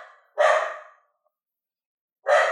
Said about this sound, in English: that's my dog's barking